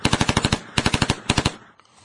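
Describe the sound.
Rapid automatic gunfire sound effect in three loud bursts of quick, evenly spaced shots. The first burst is the longest, and the last trails off into quiet.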